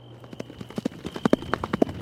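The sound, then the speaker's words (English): Horse hooves clip-clop in a steady walking rhythm as a rider reins up in the gloom. Many crisp hoof strikes ring out at moderate loudness, some louder than others, with no voices. “Deputy Rogers reined up and tried to peer through the gloom.”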